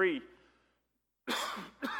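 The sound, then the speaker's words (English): A man coughs twice, harshly, during an evening sermon. The coughs follow a brief bit of voice and a short pause. “if you'll pardon me, I guess I'm going to try to cough a little bit this evening”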